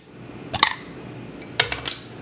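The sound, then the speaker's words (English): A Flying Fish Farmhouse Summer Ale is opened with sharp metallic clinks and snaps: a pair near the start, then a quick cluster of a few bright clicks, over a quiet background. “Oh, yeah. Flying Fish Farmhouse Summer Ale. The sound of... beer being opened.”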